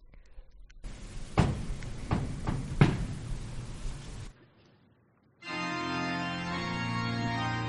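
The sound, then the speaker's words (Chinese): A heavy door is closed: the Holy Door of St. Peter's Basilica, shut by the Pope. A few dull thuds and scrapes sound over a faint hum, then a pause, then sustained music begins. “教宗起身，关上圣门。”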